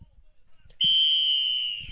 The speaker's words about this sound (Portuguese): Apita o árbitro, autoriza já o começo da segunda etapa